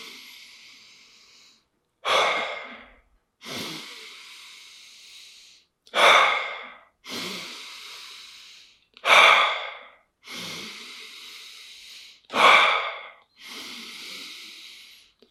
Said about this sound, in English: When my hand goes up, that means inhale. When it goes down, it means exhale.